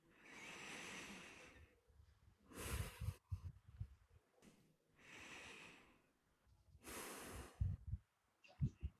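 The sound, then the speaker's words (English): Two slow, deep breaths taken during a guided pause. Each is a long, airy inhale followed by a louder, rougher exhale, with the cycles evenly paced. “I'm going to ask you to join me and pause and just take two deep breaths. So you don't need to change anything about how we are positioned. Just breathe slowly and feel the sensation of air as it moves down your windpipe.”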